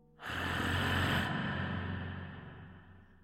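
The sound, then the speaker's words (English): A single long, raspy wheezing breath close to a man's ear in a horror scene swells in suddenly, then slowly fades over about three seconds, with a low rumbling undertone beneath the breathy hiss. “Wheezing. Close to his ears.”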